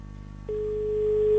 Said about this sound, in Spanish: Ahí está mi móvil llamando. A ver si lo consigue. Ahí lo tengo llamando.